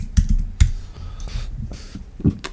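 Typing on a computer keyboard: a few sharp key clicks and soft thumps scattered unevenly over a couple of seconds, fairly quiet and with no voices.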